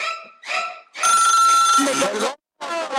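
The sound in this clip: A telephone rings with an incoming call during a radio call-in segment, a steady electronic tone sounding for over a second amid busy, loud voices.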